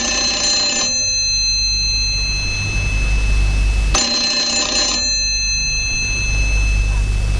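A telephone rings with an incoming call from a hospital: two shrill, bright ring bursts of about a second each, a few seconds apart, over a steady low background hum.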